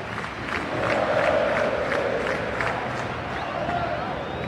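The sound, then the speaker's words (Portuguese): A stadium crowd in the stands sings happy birthday to Palmeiras on the club's 112th anniversary during a football match against Santos, a loud, dense mass of voices that swells slightly and stays steady. “E o parabéns rolando agora nas arquibancadas.”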